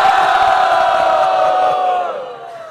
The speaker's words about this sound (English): If you want to take the responsibility upon yourselves and take it off me, chant very loud, Hari Bol. Hari Bol!